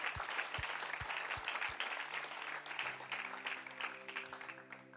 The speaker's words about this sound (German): du kannst Applaus geben